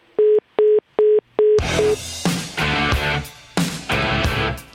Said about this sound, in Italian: poi ci ha buttato giù il telefono come al solito